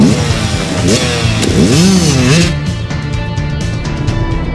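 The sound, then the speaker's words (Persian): Motorcycle engine revving loud and rough as a rider jumps hills, its pitch swooping up and down in repeated surges before settling into a steadier, gritty drone. “نوید در حالی که کلاه ایمنی به سر داره به موتورش نزدیک میشه کلاه ها میذاره روی سرش و دستکشاشو دستش میکنه”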